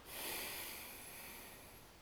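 A slow exhale during a guided breathing exercise: one long, breathy hiss that swells early, then holds and tapers gently over two seconds, with no talk.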